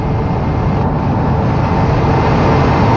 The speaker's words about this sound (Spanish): Ahí va el bus en movimiento.